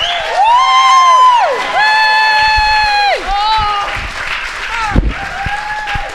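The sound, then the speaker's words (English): An audience on the Isle of Wight applauds and cheers a guest's entrance at an evening event. Loud, sustained whooping shouts ride over steady clapping, easing after about five seconds. “Please put your hands together for Annika Rice!”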